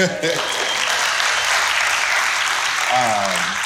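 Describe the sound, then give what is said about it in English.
An audience at a wildlife arts festival claps for a bird dog in dense, loud, steady applause that fills the whole stretch, with a voice briefly heard near the end. “if y'all don't mind clapping it up”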